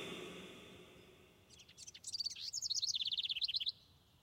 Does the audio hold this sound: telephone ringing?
no